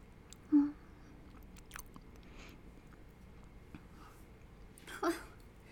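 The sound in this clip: Chewing on breakfast food, faint and quiet: soft mouth sounds with two sharper crunchy bites, one near the start and one near the end, and only light chewing noise between them.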